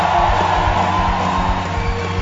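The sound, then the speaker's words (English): A church audience shouts praise to the Lord, a loud, sustained wash of crowd cheering and whooping that carries on without a break. “Give the Lord a shout. Let's welcome Pastor Solo. Praise the Lord. Give the Lord a shout of praise.”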